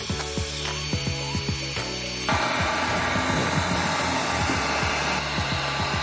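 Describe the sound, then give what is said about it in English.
A heat gun blowing on freshly thrown clay pottery to dry it, a steady whirring fan roar with rattling mechanical ticks that turns fuller and louder about two seconds in. “We're gonna use this heat gun to speed up the drying process.”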